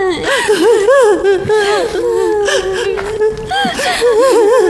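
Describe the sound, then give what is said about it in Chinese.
A woman cries loudly, with wavering, high sobbing wails broken by sharp gasping catches of breath, her pitch rising and falling unevenly throughout. “别哭了”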